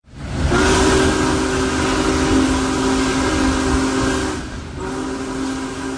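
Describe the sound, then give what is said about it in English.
Big Boy steam locomotive No. 4014 travels between Sayre, Pennsylvania and Owego, New York, giving a loud sustained tonal blast over heavy rumbling that breaks off briefly near the end and then resumes. “The Big Boy locomotive continued its march toward Northeast Pennsylvania today with a trip from Sayre, Pennsylvania to Owego and Binghamton in New York.”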